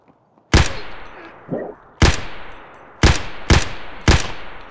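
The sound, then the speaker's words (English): Gunshots ring out in a video game shooter, six loud sharp cracks at irregular intervals, each with a short decaying tail, with a faint softer thud between the first two. “And I got shot in the face.”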